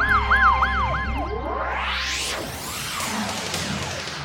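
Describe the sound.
An ambulance siren approaching, loud and alone, wailing through several quick rising-and-falling cycles, then shifting into long sweeping tones that climb steadily in pitch.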